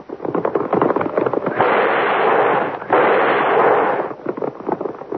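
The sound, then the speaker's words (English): A dramatized explosion effect of the Union Bank being blown up: loud, crackling blasts give way to two long, roaring bursts of broad noise, which then fade into further crackle. “Look at all that smoke coming out of the bank. Someone get the fire department. Looks like the bank's on fire. Well, do something, somebody. The Union Bank's just been blown up.”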